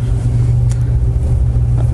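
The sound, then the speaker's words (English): A steady, low engine hum fills a car interior while sitting in traffic, continuous and even in loudness, with no talk over it. “All right, we're sitting in traffic”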